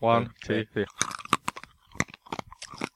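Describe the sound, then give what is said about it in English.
Crunching of licorice-flavoured candies between the teeth, many sharp irregular crunches and crackles following a voice speaking at the start. “They're not as bad as I remember. Oh, they're pretty bad just sucking them. I said it's licorice again. Just you wait till you crunch them, guys.”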